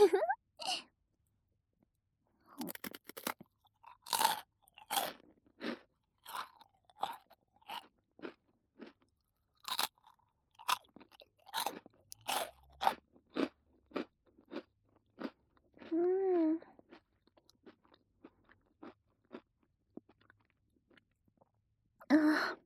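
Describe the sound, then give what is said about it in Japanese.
Someone eats a crunchy salty snack, with many quiet, crisp crunching bites and chewing in irregular bursts separated by short pauses. “美味しかった。もう食べ終わっちゃった。しょっぱいのを食べたら、うん、今度は甘いの欲しくなるよね。”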